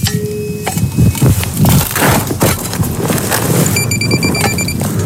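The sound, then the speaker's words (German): Digging in the ground to recover a metal detector find makes rough, loud scraping and crunching strikes, followed by steady high electronic beeping tones near the end. “Und jetzt gehen wir mal runter, jetzt schauen wir mal. Da haben wir was, da müssen wir graben.”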